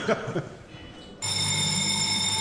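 A telephone rings with a steady, bright electronic tone that starts abruptly about halfway through and keeps going, after a stretch of muffled, low-level sound.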